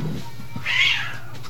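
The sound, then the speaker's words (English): A cat fight at a screen door: one loud, drawn-out, wavering cat yowl rises out of a low background and then fades away. “There's a cat fight happening at the screen door.”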